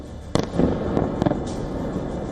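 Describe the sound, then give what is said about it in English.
Sharp explosive blasts from Russian missiles striking targets in a district of Kyiv, a few loud booms in quick succession over a dense, rumbling background. “In the Golosivsky district, four Russian missiles slammed into targets in less than a minute. There were no interceptions, no explosions in the sky, just impact after impact.”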